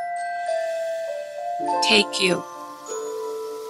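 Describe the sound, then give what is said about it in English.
Music-box bells and bowls ring out in sustained, overlapping metallic tones, with a brighter cluster of chimes sounding in the middle before the tones settle and linger. “And the music I've picked is the music box. So listen to the bells and the bowls and let the sounds”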